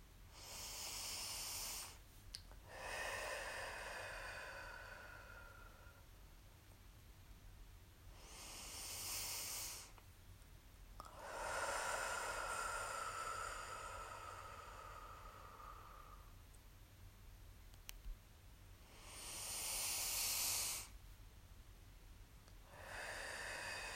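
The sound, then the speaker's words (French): Slow, deep breaths are taken during a relaxation exercise, with long airy inhales and exhales separated by pauses. They are faint, with no other sound. “Pour oxygéner tous les tissus de mon corps, je prends trois vastes respirations.”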